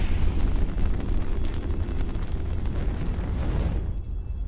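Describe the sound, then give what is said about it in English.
Fire burning in a rectangular fire pit at night: a loud, dense, steady roar with crackling texture throughout, the brighter hiss thinning out near the end. “Flames lick up from a rectangular fire pit.”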